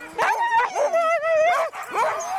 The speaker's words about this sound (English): You can see in the dogs now, they're starting to get fired up a little bit.